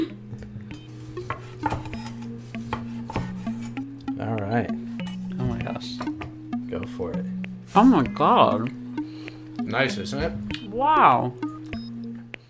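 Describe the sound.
Cutlery clinks and scrapes against dishes as someone eats a koji-crusted, mold-covered pork chop. A few sharp metallic taps sit under steady talk and excited exclamations from several people.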